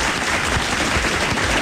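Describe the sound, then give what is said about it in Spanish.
Audience applause, a dense, steady wash of many hands clapping that holds at an even level for the whole stretch, with no voices standing out. “Me uno a esos aplausos. Dios mío, qué aplauso.”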